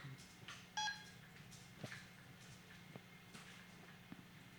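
A telephone number is dialed, giving a short touch-tone beep followed by faint scattered taps and clicks. The whole passage stays very quiet.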